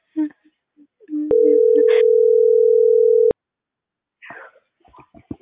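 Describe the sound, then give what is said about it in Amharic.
A phone call goes unanswered: one steady, unbroken electronic tone lasting about two seconds sounds on the line, with people talking briefly before and after it. “ከስተመር ስልክ አያነሳም ተብሎ መልሷል።”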